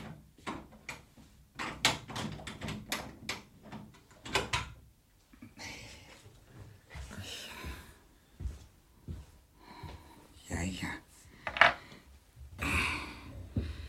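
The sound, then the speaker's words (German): A door being shut and locked with a key, heard as a cluster of sharp knocks and metallic clicks early on, followed by quieter scattered rattles and rustling. “Aber bitte, wenn es Ihnen nicht sicher genug ist, dann schließe ich am besten die Tür zu.”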